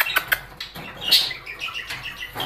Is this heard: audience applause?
no